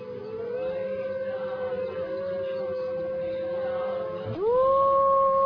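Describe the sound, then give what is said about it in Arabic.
A large wolf howls in long, sustained tones, holding a steady pitch before a sharp upward glide near the end, then carrying on at a higher pitch. “شوفوا الذئب الصغير اللي كان هو اللي كان ده، أصبح الذئب الكبير اللي بقى يعوي في الجهة الأخرى، والعواء شوفوا إزاي.”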